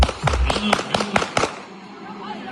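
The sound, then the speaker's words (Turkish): Gunshots fired into the air at a wedding in Şanlıurfa: a rapid series of several sharp, loud cracks in about a second and a half, followed by quieter background noise. “Düğüne giden bir kişi oyun esnasında silahına davrandı. Havaya doğru bir anda ateş etmeye başladı.”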